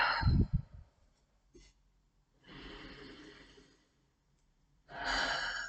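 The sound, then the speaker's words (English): Slow, deep breaths are taken during a guided meditation, soft and quiet, with a few airy inhales and exhales separated by near-silent pauses. “take some deep breaths”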